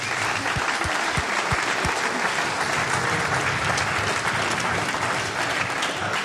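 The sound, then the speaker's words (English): A concert audience applauds the sound engineer near the end of a live show, a dense, steady wash of clapping that stays loud for the whole six seconds, with a few heavier low thumps early on. “I want you to give a big hand for our sound man, Sven Hoffman.”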